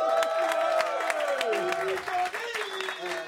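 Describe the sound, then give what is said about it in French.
Applause and cheering from a live studio audience at a radio show taping, with dense clapping and excited voices holding at a steady, fairly loud level throughout. “Est-ce que le public est en délire”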